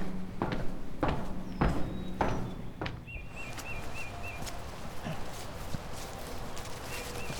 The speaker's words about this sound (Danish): Så går vi ned ad trappen her.